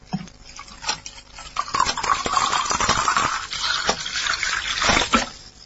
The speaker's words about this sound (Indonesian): Kutuangkan air pada gelas yang sudah disiapkan.